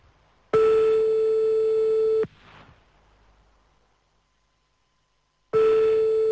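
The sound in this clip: Telephone line tone while placing a call: two long, steady, loud mid-pitched beeps separated by a few seconds of near silence, with a faint noisy rustle just after the first beep.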